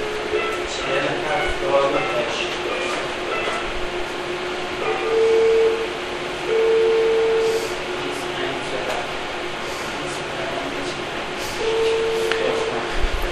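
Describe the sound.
A cooling fan runs with a constant whirring hum for the whole stretch, while a few steady tones come and go over the noise.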